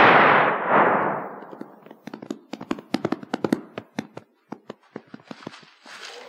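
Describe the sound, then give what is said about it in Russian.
A gunshot in a dramatic wartime film scene rings out as one loud, broad blast with a long, fading tail, then a quick series of sharp clicks and taps. “Что здесь? Кто стрелял? Гляди-ка, поручик убит.”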